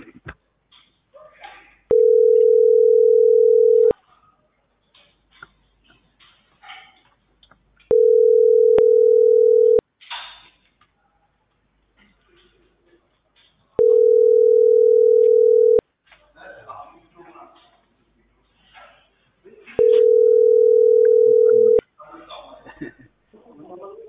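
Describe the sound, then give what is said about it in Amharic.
A telephone ring tone for an incoming call sounds four times, each a steady, even tone of about two seconds at regular intervals, with voices talking in the gaps between rings. “ከርጋማ ይደውላል።”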